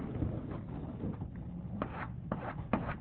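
A lecturer draws a lattice on a board, making rubbing, scratchy writing strokes. A few short, distinct scrapes stand out over low, steady background noise.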